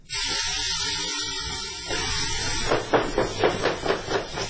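A knife chops carrots as a pregnant woman cooks in a crisis shelter kitchen. A hiss comes first, then a run of firm, rhythmic chops.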